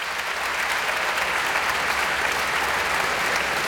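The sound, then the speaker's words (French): Enthusiastic concert audience applause after Beethoven's First Piano Concerto performed with a philharmonic orchestra, a dense, even roar of clapping sustained throughout. “Et vous entendez ce public enthousiaste, évidemment, il en redemande et le pianiste va craquer.”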